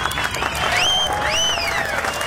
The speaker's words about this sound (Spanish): Un aplauso para el operador, para el productor.